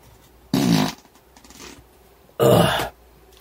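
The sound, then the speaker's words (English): A fart comes in two loud, low, rasping bursts separated by a short pause, with nothing else heard. “Hold on, I got a fart.”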